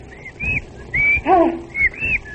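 A whistle is blown into a microphone, making bird-like whistling: a few short, high, chirping sweeps that rise and fall, separated by brief gaps.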